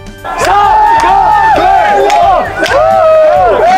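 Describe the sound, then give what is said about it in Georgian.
Georgian football fans chanting and shouting in the streets of Dortmund: loud, continuous massed voices with rhythmic bursts of shouting throughout. “მეორე დღეა დორტმუნდი ქართველი ქომაგებით არის ავსე და თითქმის ყველა ქუჩაზე ქართული შეძახილები ისმის.”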